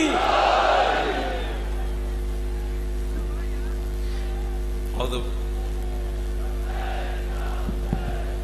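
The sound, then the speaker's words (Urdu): A crowd at an Urdu religious gathering shouts back in response to Islamic slogans: takbir, risalat and Haidari. A loud collective roar opens and fades within about a second. A fainter crowd response comes later, over a steady low electrical hum. “ان کے استقبال کے لیے بھرپور ان شعار کا جواب دیجئے گا. نعرہ تکبیر, نعرہ رسالت, نعرہ حیدری.”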